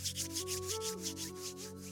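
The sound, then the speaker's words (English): Hands rubbing together in steady, brisk strokes, making a soft, even swishing about five times per second over quiet sustained music. “Just take a deep breath and then start to rub your hands together,”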